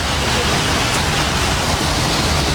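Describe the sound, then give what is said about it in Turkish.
Heavy rain pouring down and flooding the streets of Dörtyol and Payas in Hatay, a dense, unbroken rushing hiss that stays loud and even from start to finish. “Sabah saatlerinden itibaren etkisini gösteren yağış, Dört Yol ve Payas ilçelerinde yolları ve caddeleri göle çevirdi.”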